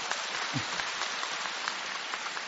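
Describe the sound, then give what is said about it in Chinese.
Audience applause at a Buddhist talk: a steady, even patter of many hands clapping at moderate volume, unbroken throughout, with no voices. “鼓掌。”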